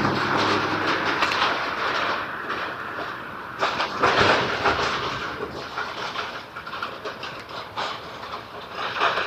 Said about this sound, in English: The guy hauling a, as you can probably tell, metal trailer that is not tightened down exactly.